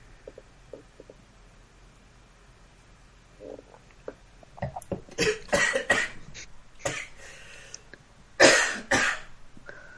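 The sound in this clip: A person coughs after inhaling wine. Faint breathing comes first, then a cluster of harsh, irregular coughs and throat-clearing bursts, ending with one louder cough.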